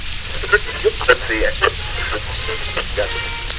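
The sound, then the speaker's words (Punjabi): Rain falls in a steady, even hiss that runs the whole way through, with a few brief brighter spatters standing out now and then. “ਇਹ ਬਾਰਿਸ਼ ਫੇਰ ਸ਼ੁਰੂ ਹੋ ਗਈ ਹੈ।”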